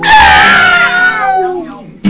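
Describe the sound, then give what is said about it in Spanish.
A cat lets out one long, loud, drawn-out meow that sounds like a caterwaul, its strained wail fading over about two seconds. A second cry begins right at the end. “qué bueno ese gato. Qué bueno ese gato, el gatico era tremendo”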